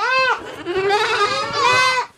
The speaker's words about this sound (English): These 8-week-old goat kids have a lot to say during my tour of Amish farmer Mervyn Graber's milking barn